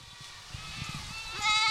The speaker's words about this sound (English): Dozens of Spanish goats are roaming around a field in the Mark Twain National Forest in the Missouri Ozarks.